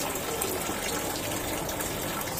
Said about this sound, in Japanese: はい、洗いました。わー綺麗、 水の音も入ってるはずね。